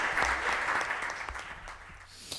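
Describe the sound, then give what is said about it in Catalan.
Members of the Vila-real town council applaud, a dense and continuous patter of many hands clapping that holds steady throughout. “Este és el moment quan estan aplaudint tots els membres de, diguem, el consistori Vila-real.”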